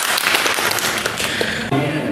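Loud applause from a quiz contest audience, with dense, continuous clapping that holds at a steady level throughout with no pause.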